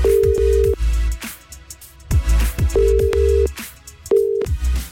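Ringback tone of an outgoing phone call placed during a radio request show: a steady, mid-pitched beep sounds in three short bursts over background music with low thumping beats.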